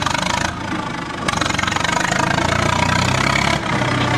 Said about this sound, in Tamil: அந்த ஜேசிபியை ஸ்டார்ட் பண்ண சொல்லு